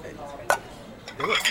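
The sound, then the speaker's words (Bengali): Dishes clink as food is served onto plates: one sharp ceramic clink, then a brief clatter of plates and cutlery at moderate loudness. “আমি serve করে দিচ্ছি।”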